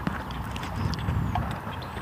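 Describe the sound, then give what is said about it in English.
Footsteps of someone walking by on the street: a steady series of hard, even steps, fairly faint, with no talk over them. “Here comes somebody walking. I'm going to have to get out on the street.”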